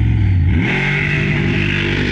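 A monster truck's engine roars at a drag race start, a heavy, low, rumbling growl that dips slightly in pitch early on, then holds loud and steady to the end.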